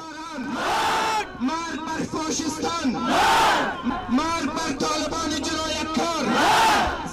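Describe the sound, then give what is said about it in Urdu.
Protesters in Kabul chant slogans against the Taliban, a loud mass of voices repeating rhythmic phrases, with the chant rising to forceful peaks at intervals. “ادھر کابل میں لوگوں نے طالبان کے خلاف احتجاجی مظاہرے کیے ہیں اور طالبان مرد آباد کے نعرے لگائے ہیں۔”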